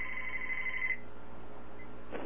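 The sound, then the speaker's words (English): An incoming call rings on a telephone: one shrill, steady electronic ring lasting just under a second, then the line falls quiet apart from a low background hum. “I've got a call coming in on the other phone.”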